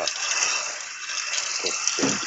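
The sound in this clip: Hot water runs over a cast-iron skillet as it is rinsed during camp-cooking cleanup, a steady, fairly loud hiss of flowing water that continues throughout.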